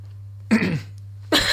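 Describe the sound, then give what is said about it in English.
Coughing on spit stuck in the throat: two harsh, throaty bursts separated by a brief pause, loud over a steady low hum. “Sorry, I was about to speak, and then a bit of like spit just got stuck in my throat.”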